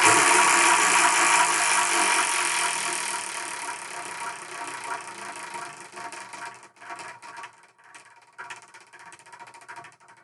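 A spun prize wheel starts with a dense, loud whirring rattle that gradually fades. Its clicks then thin out into sparser, slowing ticks that spread further apart as the wheel coasts toward a stop. No voices are heard.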